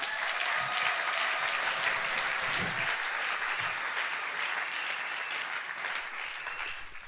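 Applause from a church audience, a dense, continuous patter of many hands clapping, steady and full throughout, easing slightly toward the end.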